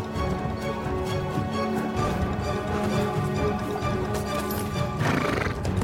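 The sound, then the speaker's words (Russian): A horse's hooves clip-clop in a steady, loud run of beats as riders mount and set off, and a sharp whinny rises near the end. “Коня мне быстро!”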